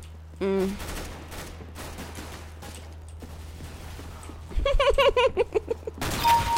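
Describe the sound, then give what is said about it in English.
Gunfire in a shooter video game: a sharp shot early on, then a rapid burst of shots toward the end over a steady low hum. “Nice shot. It was too low. Neck shot, not headshot.”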